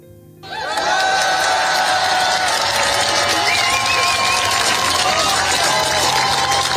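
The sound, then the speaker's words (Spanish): Loud crowd noise from a left-wing demonstration in Paris against Le Pen's party, called by the Greens and the far left, a dense, steady roar of many voices that rises sharply at the start and holds throughout. “Este es el sonido de la manifestación izquierdista”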